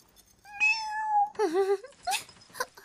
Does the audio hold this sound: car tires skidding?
no